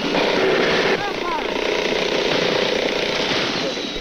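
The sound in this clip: Steady rotor and engine roar of a Jolly Green rescue helicopter hovering over jungle while a crewman is lowered to an injured pilot, a loud continuous chopping drone throughout with voices faintly beneath at times.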